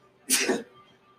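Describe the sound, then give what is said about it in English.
A single sharp sneeze from a person during a little sneezing attack, one loud burst of about a third of a second against a quiet background. “when someone has like a little sneezing attack in front of you”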